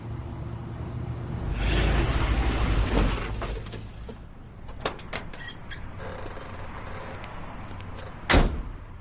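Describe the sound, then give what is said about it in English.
A truck parks, with a low engine rumble during the first few seconds that then dies away. A few scattered mechanical clicks follow, and a single louder door thud comes near the end. “parks her truck and gets out”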